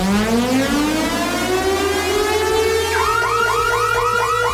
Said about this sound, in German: Und wenn ihr diesen Alarm hier hört